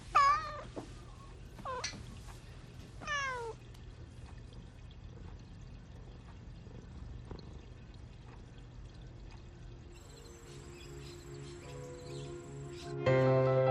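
A pet cat meows while being stroked: a few distinct, fairly loud meows come near the start, followed by a long stretch of quiet, low background sound with no talk.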